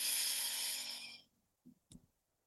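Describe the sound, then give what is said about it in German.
A deep inhale through the nose during a guided breathing exercise, an airy hiss lasting about a second that fades away, followed by a couple of faint soft clicks. “Und einmal ganz tief durch die Nase einatmen.”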